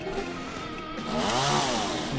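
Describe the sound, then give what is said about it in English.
A chainsaw from a video game runs as a loud, continuous buzzing engine whine that swells upward in pitch midway and then eases back, with no talk over it. “Put a chainsaw in the corner there. You know? That makes sense. Yeah. Chainsaw in the corner.”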